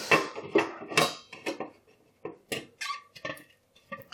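Dishes, including a plastic bowl, clatter as they are dried by hand with a red dish towel: a quick, irregular run of many light clinks and knocks, fairly faint, with no talking.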